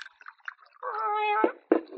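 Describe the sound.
A cat meows on the bar of a quiet, nearly empty saloon. One long, drawn-out, tonal meow holds steady before cutting off, with a few short, faint sounds around it.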